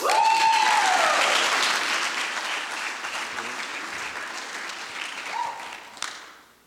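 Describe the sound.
An audience applauds a student speaker from a senior youth group: loud, sustained clapping with a high whistle at the start and another whistle later. The applause gradually eases off and fades at the end.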